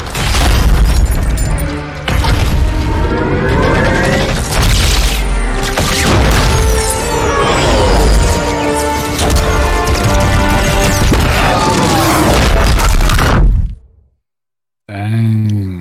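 Heavy booming stomps and crashing impacts from a giant Covenant walker in the Halo 2 video game, a dense, relentless barrage of thuds and clatter that cuts to near silence before one last short burst.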